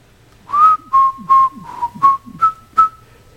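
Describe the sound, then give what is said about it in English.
A person whistles a song as seven clear, sustained notes in a brisk, even rhythm. The tone is pure and loud, with short gaps between notes and nothing else beneath it. “If I start to whistle,”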